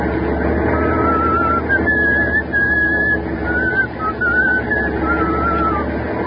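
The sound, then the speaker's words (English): Steady engine and road drone from a truck hauling high explosives along a foggy mountain highway, a dense continuous rumble with thin wavering high tones drifting over it and no voices. “of high explosives to a government arsenal was rolling along a foggy, mountainous stretch of Highway 9W in eastern Pennsylvania.”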